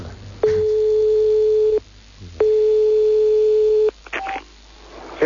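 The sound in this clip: Telephone line tones sound while a call is placed to a truck driver on the road: two long, steady, mid-pitched beeps separated by a pause, followed by a few clicks and a brief higher tone.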